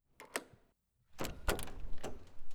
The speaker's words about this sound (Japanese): 今開けるね。